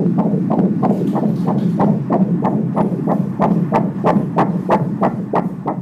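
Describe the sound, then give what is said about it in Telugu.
Fetal heartbeat picked up on an ultrasound scan, around 30 weeks into pregnancy: a steady, fast train of about fourteen soft whooshing thumps, evenly spaced over a low continuous hum, with no voices. “Heart beat అది మంచిగా ఉన్నది”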